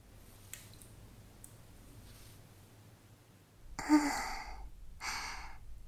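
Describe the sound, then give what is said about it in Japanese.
Ear massage sounds in a hot spring bath: two soft, breathy rubbing swishes close together, the first louder and longer. A few faint clicks come before them over a quiet background. “そしたら、お耳のマッサージっと。”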